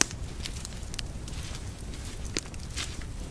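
A small campfire of brushwood burns with scattered crackles and sharp pops over a low, steady hiss, fairly faint and with no talk.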